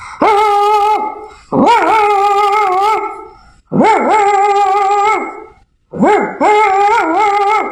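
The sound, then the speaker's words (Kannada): A voice imitates the barking of a grandmother's pet dog with four loud, drawn-out barks that waver in pitch, separated by short pauses. “ಅಜ್ಜಿ ಸಾಕಿರುವ ಒಂದು ನಾಯಿ ಈ ರೀತಿ ಬೊಗಳುತ್ತಿತ್ತು.”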